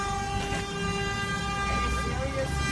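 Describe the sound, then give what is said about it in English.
Car horns honk at a man in a parking lot, blaring as one sustained, layered tone of steady loudness for the whole stretch over low background noise. “Everybody's beeping at him.”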